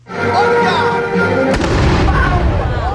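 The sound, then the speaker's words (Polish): A cannon booms at a historical battle reenactment of the 1920 Polish-Bolshevik war in Białystok: one sharp, loud blast midway, followed by a low rumbling tail, with busy voices and background noise beforehand. “Co jakiś czas w Białymstoku rozlegał się też dziś huk armaty.”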